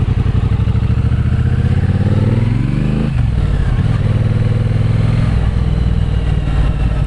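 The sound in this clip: Motorcycle engine during a ride with a low-slung riding position, revs climbing steadily, then dropping sharply at a smooth gear change before settling into a steady, loud drone.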